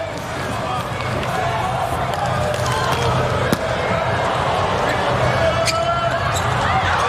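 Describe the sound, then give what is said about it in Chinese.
A volleyball serve during a USA versus Poland match: one sharp hit of the ball near the middle, standing out briefly over steady crowd noise and arena din. “罗宾逊的发球”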